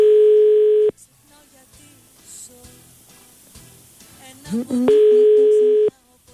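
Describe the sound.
Ringback tone of a phone line on a radio call-in: two steady, even one-second tones about four seconds apart, loud and clean, with faint background sound in the gap between them.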